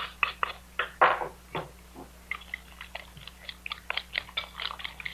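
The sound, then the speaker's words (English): Spanish omelet ingredients are mixed together in a rapid, irregular run of faint clicks and soft scrapes, with a louder burst near the start before the taps continue unevenly. “Now, mix the whole works together.”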